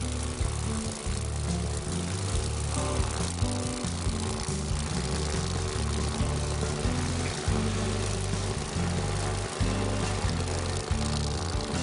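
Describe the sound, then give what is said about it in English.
Dragonfly airboat engine running on a shallow river, a loud, rough, constant drone with a heavy pulsing throb that holds steady throughout, with no talk. “I really love this dragonfly airboat. It helps me to get to areas on the river that are usually impossible to get to because of shallow water.”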